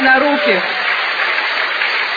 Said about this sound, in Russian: Wait. Here's the best story. You're clapping too soon. Вы сильно рано хлопаете.